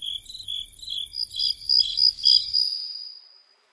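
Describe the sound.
Cricket chirping in rapid, high-pitched pulsed trills. The steady stridulation swells toward the middle and then fades away, heard alone over a faint low rumble.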